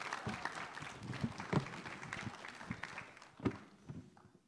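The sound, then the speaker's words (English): Applause from the audience at a Christmas Eve church service, greeting a child helper. Dense, steady clapping with a few sharper claps standing out, easing off toward the end. “Thank you so much for your help. You can go back with mom and dad now. Give it up for our helper.”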